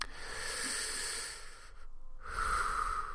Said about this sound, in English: let's just take a breath together, shall we?